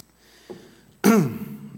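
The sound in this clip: Someone clears their throat once with a loud, short, harsh rasping burst after a quiet stretch.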